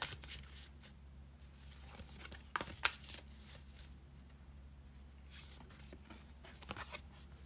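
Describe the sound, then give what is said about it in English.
Tarot cards being shuffled and drawn for a three-card reading, a quiet run of papery rustles and flicks broken by a few sharper snaps, with no talk. “Now for Geminis, let's pull three cards for you.”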